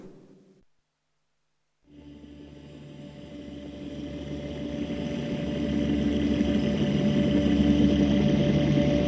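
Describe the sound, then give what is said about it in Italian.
A vehicle engine starts after a short silence and pulls away down a snowy slope behind skiers. Its steady mid-pitched drone with humming harmonics grows gradually louder over several seconds. “Premo l'acceleratore e incomincio a muovermi con assoluta scioltezza.”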